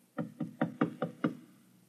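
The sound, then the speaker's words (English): Six knocks on a door, rapped in a quick, steady rhythm with no other sound around them. “The last man on Earth sat alone in a room. And then there was a knock on the door.”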